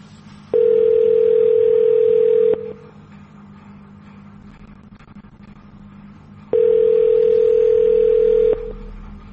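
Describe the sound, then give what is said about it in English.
A telephone tone plays while a call is being transferred. Two long, steady tones, each about two seconds, are separated by a pause of a few seconds over a faint line hiss. “For a spell by name directory, wait while I transfer your call.”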